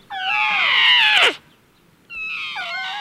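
A baby elephant gives two long, high, wavering calls. The first call bends downward at its end and breaks off. The second call is shorter and comes after a brief silence.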